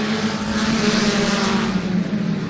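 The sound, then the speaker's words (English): Four-cylinder race cars in a Lightning Class field roar off at the green flag start. Several engines blend into one loud, continuous, dense roar with no talk. “will lead this field of four-cylinder race cars, the Lightning Class. Going to try this again. 25 laps on the board. Green flag flies.”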